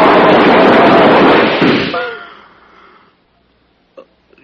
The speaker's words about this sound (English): Why didn't it work? They shot at me.